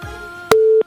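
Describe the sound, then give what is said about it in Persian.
A telephone busy signal on a call that failed to connect: one short, loud, steady electronic tone that starts abruptly and cuts off after about a third of a second, following a faint low hum. “فکر میکنم که تماس وصل نشده یا قطع شده.”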